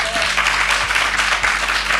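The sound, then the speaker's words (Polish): Applause for the festival crew working from morning to night: dense, steady clapping that fills the whole two seconds at an even loudness. “Tutaj ekipy uwijają się od rana do wieczora, żebyśmy my mogli w takich fantastycznych warunkach robić dla państwa audycję. Tutaj dla chłopaków też wielkie, wielkie brawa.”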